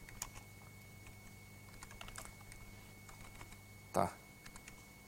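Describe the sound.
Soft, scattered keystrokes on a computer keyboard with an English layout, quiet irregular clicks with one louder clack near the end.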